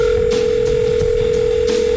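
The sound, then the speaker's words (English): A telephone dial tone hums at one steady pitch for the whole stretch while someone tries to place a call, with a few faint, brief noise bursts along the line and no clear dialing tones. “we tried to phone him up”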